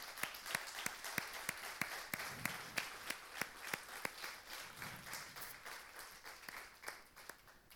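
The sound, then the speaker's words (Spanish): An audience at a Sunday church service in a Spanish-language sermon claps in even, rhythmic beats. Many sharp, regularly spaced claps ride over a softer wash of applause, keeping a steady pulse throughout. “Dale un fuerte aplauso al Señor.”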